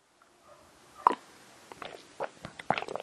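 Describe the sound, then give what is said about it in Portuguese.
Someone drinking, with a distinct gulping swallow followed by a few softer wet clicks and swallowing sounds. “Desculpem, estou a beber”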